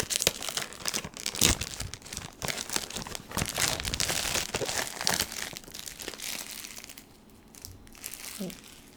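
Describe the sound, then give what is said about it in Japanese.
Plastic film wrapping peeled off a box during an unboxing, a stretch of dry crinkling and crackling with many irregular bursts, fairly soft throughout and tapering toward the end. “外のフィルムが剥がし終えたので、箱を開けていきたいと思います。”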